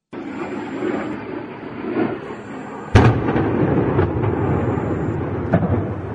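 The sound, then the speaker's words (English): Missile strike explosion in the city of Odessa: one sudden, sharp, loud blast about halfway through cuts across a steady low rumbling background, which carries on afterward with a fainter thud near the end. “That's the sound of a missile hitting Odessa, killing 8 people, including a 3-month-old girl, according to Ukrainian President Zelensky.”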